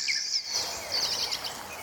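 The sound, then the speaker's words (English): Red-winged blackbirds call from a marshy area beside a wooden platform: a steady stream of high, thin whistles and trills that overlap continuously for the whole stretch, with no voices. “Red-winged blackbirds.”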